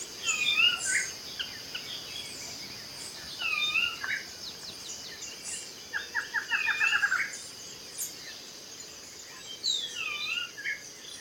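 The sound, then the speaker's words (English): Rainforest ambience on a bird-friendly farm beneath the canopy: a steady, high insect drone runs throughout while several birds call in scattered bursts, including a quick rapid trill midway, all fairly faint. “You have the rainforest cover above you, and what you hear is the sounds of a rainforest.”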